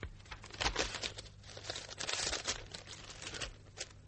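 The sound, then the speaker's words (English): Paper crinkles and tears as an envelope is opened, a run of irregular rustling bursts of fairly soft, dry crackle with no talking. “There's an envelope.”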